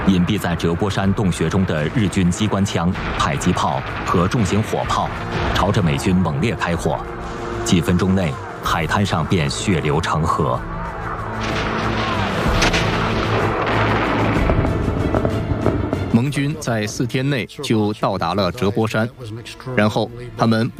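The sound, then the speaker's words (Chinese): Machine guns, mortars and heavy artillery fire from cave positions onto a beach in a 1945 Iwo Jima battle. The gunfire and booms rumble loud and continuous under spoken narration. “隐蔽在折波山洞穴中的日军机关枪、迫击炮和重型火炮朝着美军猛烈开火”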